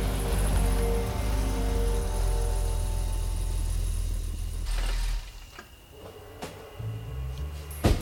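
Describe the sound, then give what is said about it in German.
A Mercedes car pulls up on a street at midnight and idles. A low, steady engine rumble holds for about five seconds, then drops away, leaving a few faint clicks and knocks near the end. “Ein Mercedes hielt an der Straße.”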